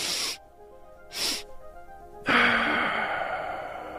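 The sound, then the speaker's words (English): Double-inhale breathing: two quick, sharp breaths drawn in through the nose, separated by a short pause, followed by a long, steady, breathy exhale that fades slowly. No one speaks. “When you're feeling stressed, you can do a double inhale.”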